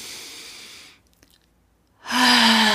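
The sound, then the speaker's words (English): A deep breath drawn in through the nose and released during a guided stress-relief exercise: a long, soft, breathy inhale, a short silent pause, then a stronger, steady exhale that continues to the end. “Take that deep breath in through your nose.”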